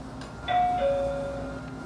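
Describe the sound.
A train station arrival chime plays two clear electronic tones, the second slightly lower and longer than the first, fairly soft over a low steady background hum.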